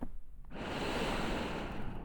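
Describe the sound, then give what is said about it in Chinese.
Deep breathing, a sustained airy rush of inhaled and exhaled breath that begins after a brief quiet start and holds fairly steady and loud to the end. “深呼吸，吸气，呼气，”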